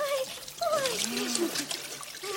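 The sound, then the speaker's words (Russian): Warm water is poured over someone in a washtub, making a steady trickling, splashing stream under a voice. “Ну, а теперь в корыто. Так вот. Ой. Сейчас теплой водой оболью.”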